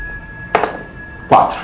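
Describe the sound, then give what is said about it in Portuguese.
A six-sided die is rolled during a tabletop RPG session, making two short knocking impacts on a surface about three-quarters of a second apart, with a faint steady tone beneath. “Então rola um D6, ver quantos pegou.”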